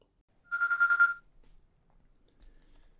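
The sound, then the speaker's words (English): A telephone gives a single trilling ring, one short warbling burst that stops abruptly and is followed by near silence. “Then I was about to kick off this podcast when the person rang me back and this.”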